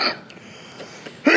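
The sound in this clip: Two short, harsh coughs from a person, one at the very start and a louder one at the end, separated by a low, steady background hiss with no talking.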